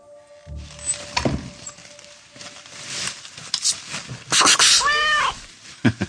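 A hungry cat meows to be fed. Rustling and shuffling noises run throughout, and a couple of clear, rising-and-falling meows stand out near the end.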